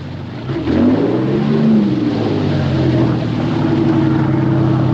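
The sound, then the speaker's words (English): A boat engine throttling back as the boat draws alongside a submarine: a loud, steady, low engine drone with layered humming tones. The pitch wavers slightly early on, then the drone holds at an even level. “The boat's throttle is pulled back as it draws alongside the submarine's curved flank.”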